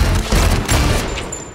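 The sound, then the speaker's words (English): Gunfire fills a comedy film scene: loud, dense bursts of rapid shots with heavy booming volleys that blend into one another and fade only slightly toward the end. “Oh, will you stop shooting everything?”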